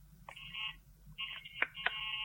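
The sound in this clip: Electronic telephone line tones sound after a call-in to a radio program drops: faint, steady high beeps broken by a few sharp clicks over a low hum.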